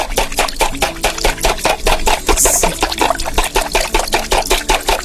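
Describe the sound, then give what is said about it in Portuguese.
Eggs being beaten by hand for a cake batter: a loud, continuous run of quick, evenly spaced whisking strokes that keeps a steady rhythm throughout, with no talking. “Quem tá batendo ovo aí? Quem tá fazendo aí bolo? Deixa eu ver. Vovó, tá fazendo bolo?”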